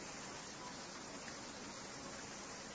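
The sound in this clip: Rain falling as a faint, steady, even hiss that continues unchanged throughout, with no voices.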